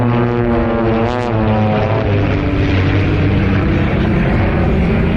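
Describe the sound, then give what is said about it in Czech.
Steady, loud propeller drone from an aerobatic airplane performing maneuvers at an air show over Cheb airfield. Harmonic engine tones slide downward in pitch over the first two seconds, then blend into a dense, roaring hum with no talk. “Mistr světa v letecké akrobacii předvedl nad Chebem manévry, při kterých diváci často ani nedutali.”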